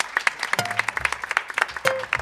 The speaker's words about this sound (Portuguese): Uma salva de palmas para o Abílio.